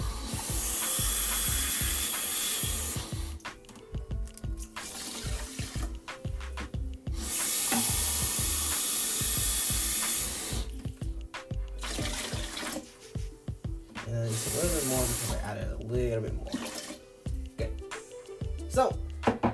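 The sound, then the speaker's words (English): Running tap water while white rice is prepared, coming in several loud rushing bursts with clattering and rubbing sounds in the gaps between them. “Making white rice, just so you know.”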